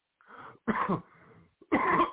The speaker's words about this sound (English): I hope I can make this all the way through tonight. I haven't coughed like this until I started all this talking.